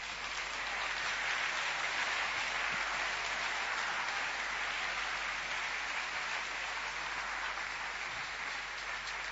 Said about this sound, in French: Gloire au Seigneur. Et ça vaut la peine de l'acclamer.